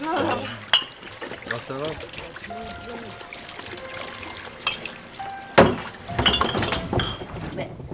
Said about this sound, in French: L'entonnoir est plein jusqu'en haut, si il se vide, ça remplit la bouteille.